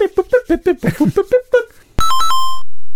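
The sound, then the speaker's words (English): Electronic phone tones after dialing a call: a voice speaks first, then a short run of bright, steady beeping tones follows and stops abruptly. “Let me dial him up.”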